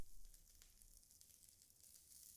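Sizzling of butter and foie gras frying in a pan as food is cooked, a steady, faint hiss with fine crackle and no pauses.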